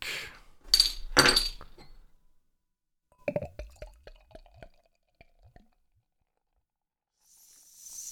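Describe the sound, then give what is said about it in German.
A bottle of Würzburger Hofbräu Kiliani Festbräu beer opened and poured into a glass, with short hissing bursts, scattered glassy clinks and drips, then a faint fizzing hiss from the lively, sparkling beer. “Aber jetzt genug geredet. Lasset uns die Flasche öffnen. Zack.”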